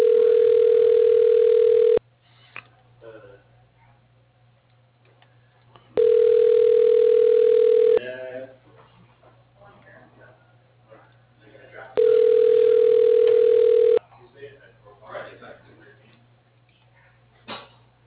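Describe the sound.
Ringback tone on a phone line while an automated system transfers a call: three steady, mid-pitched tones, each about two seconds long, separated by roughly four-second gaps that hold faint background sounds.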